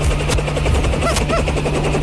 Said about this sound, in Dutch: En dan landt hij een enorme helikopter.